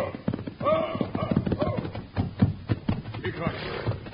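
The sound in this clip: A horse gallops down a road in rapid, uneven clip-clop hoofbeats that run through the whole clip, with voices talking over them.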